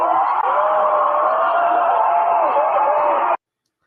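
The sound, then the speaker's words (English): A studio audience erupts in loud, sustained cheering and shouting. The dense roar of voices holds steady for about three seconds, then cuts off abruptly. “Child, the audience erupted.”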